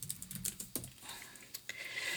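Computer keyboard typing as someone writes a note down: many quiet, quick key taps in an irregular rhythm, heard alone without talking.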